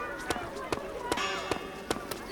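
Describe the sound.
A video game character's footsteps walking fast, seven crisp thumps at a brisk, fairly even pace, with speech running underneath.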